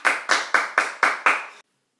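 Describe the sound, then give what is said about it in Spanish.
Applause welcoming a female guest: six even, crisp claps about a quarter second apart, then abrupt silence. “¡Un aplauso para ella!”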